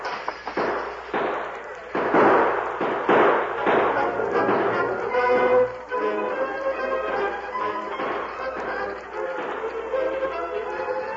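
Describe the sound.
Gunfire in a western-style shootout, men opening fire on a masked figure at a window: many sharp, cracking shots burst in rapid clusters through the first half, then thin out under a lingering mixed background.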